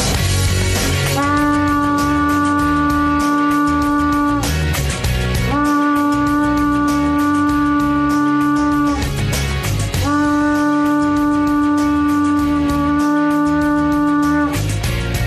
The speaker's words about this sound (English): That sound you heard is called a shofar blast. I take my shofar lots of places, and when the opportunity arises, I let her rip.